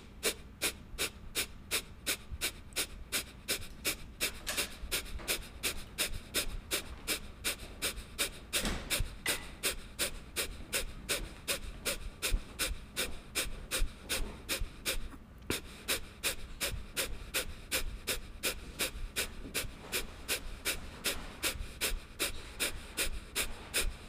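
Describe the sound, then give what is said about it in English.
Kapalabhati yoga breathing: a long run of sharp, forceful exhales through the nose in a fast, steady rhythm, each puff short and breathy, with no talking. “So we're going to take Kapalabhati breath, skull shining breath here, sharp exhale out of the nose.”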